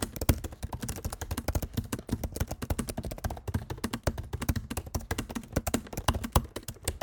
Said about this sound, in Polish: A gdybyśmy korzystali z wbudowanego mikrofonu, bo tak, cały podcast nagrywam na wbudowanym mikrofonie, to klawiatura brzmi tak.